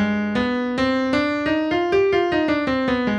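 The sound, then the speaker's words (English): A C harmonic minor scale starting on G is played one note at a time at an even pace. The notes climb step by step and then come back down, sounding clearly on their own with no talk. “Now, on your 5 chord, your dominant chord, you need to know your harmonic scale, your C harmonic scale. Okay? Right? So when I start my scale on G, it sounds like this.”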